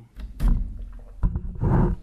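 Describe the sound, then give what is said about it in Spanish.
Lions roar in a few deep, loud bursts, each a rough low rumble with a thudding onset, separated by short quieter gaps. “George, esos leones no pueden salir de ahí, ¿no es cierto?”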